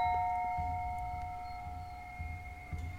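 A doorbell rings at a house. A clear sustained chime with several steady tones starts bright and slowly fades over a few seconds, with faint low thumps beneath.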